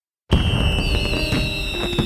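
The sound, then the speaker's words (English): Fireworks exploding at a Fourth of July Independence Day celebration in Lakewood, Ohio, in 1969: a loud, dense burst of crackling that starts abruptly out of silence and keeps going, with high steady whistling tones running through it. “On the evening of July 4th, 1969, fireworks lit up the sky in Lakewood, Ohio, as thousands gathered to celebrate America's Independence Day.”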